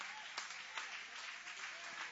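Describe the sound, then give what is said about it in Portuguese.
An audience applauds during a church service with a steady, dense patter of clapping. It is fairly faint and sustained throughout, with a few slightly sharper claps standing out. “Vamos receber o servo do Senhor com palmas bonitas que louve e adore.”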